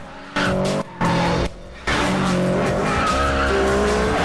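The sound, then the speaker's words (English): Car tires squeal as a Spider and an Evo race side by side round a road bend with squad cars behind. Two short, loud squeals are followed by a long, sustained screech with shifting tonal whines. “Squad cars race along behind as Brian and Pierce squeal round the bend.”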